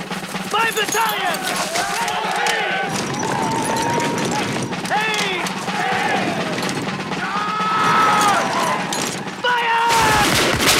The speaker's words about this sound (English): They fire at the cavalry soldiers. The cavalry retreat.